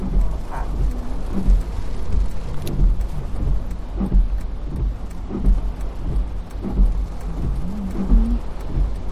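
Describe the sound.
Steady, dense hiss of rain falling around a parked car at an outdoor graduation day, loud and continuous with low rumbling beneath and no talk.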